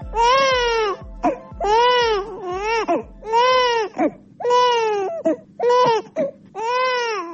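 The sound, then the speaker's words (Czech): A baby crying in Bosnia and Herzegovina gives many loud, high, wavering wails with short gasping pauses between them, and no other voices. “Ovaj zvuk plača bebe u Bosni i Hercegovini, sve se slabije čuje.”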